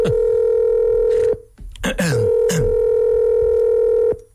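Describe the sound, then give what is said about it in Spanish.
A steady telephone line tone, used while placing a call, hums at a constant pitch, breaks off briefly around a few short irregular sounds, then resumes and holds before cutting out. “Voy a llamar FIFA ahora mismo.”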